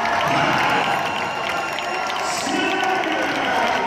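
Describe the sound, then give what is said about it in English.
An arena crowd cheers as 20-year-old American wrestler Kyle Snyder wins Olympic wrestling gold at the 2016 Rio Games, a steady, loud roar of many voices throughout. “That is the sound of Kyle Snyder springing into the worldwide spotlight at the 2016 Rio Olympics, when the then 20-year-old became the youngest American wrestler ever to win gold.”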